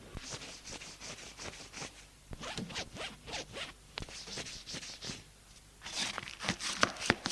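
Rapid zipper pulls rasp as a man gets dressed in a bedroom: many short, scratchy strokes come in quick bursts, with a louder run of zips toward the end.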